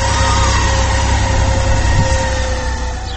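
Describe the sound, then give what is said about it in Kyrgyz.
A special vehicle washing the monuments on Victory Square drones steadily, a loud continuous engine rumble with a tonal hum and no clear change in pace. “9-чу майга карата аянттагы эстеликтер көрсө бүгүн атайын машина менен жуулуп, тазаланып жаткан кез экен.”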